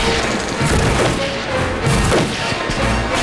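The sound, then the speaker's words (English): Gunfire from a food vendor's cart turned into a gun emplacement at a carnival, a dense, loud, continuous barrage of overlapping shots and crashes with no clear pause. “They wheel it into place and begin firing at the approaching military personnel.”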